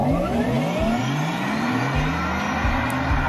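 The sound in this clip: Petrol or diesel car engine revving hard, loud and continuous, its pitch climbing in repeated rising sweeps as it accelerates.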